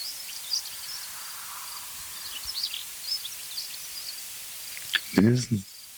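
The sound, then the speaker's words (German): Cricket chirping beside a field, a thin, high, steady trilling with light bird twitters mixed in, and a brief voice speaking near the end. “Die Grille wirst du natürlich ignorieren.”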